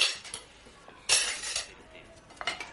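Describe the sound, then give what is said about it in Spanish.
Plates clink and clatter as a woman gathers the remaining dishes and carries them to the sink, with a few light, fairly faint knocks of crockery. “La mujer recoge el resto de los platos y los lleva junto al fregadero.”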